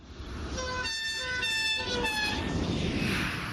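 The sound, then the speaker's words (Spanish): A train horn toots in a few steady, tonal blasts over a constant low rumble of a train travelling from Madrid to Zaragoza. The noise of the moving train continues evenly beneath and between the horn sounds. “Viajo en tren desde Madrid hasta Zaragoza.”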